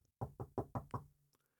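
Knocking on a house door: five sharp, evenly spaced raps in a quick steady rhythm, heard alone with no voices.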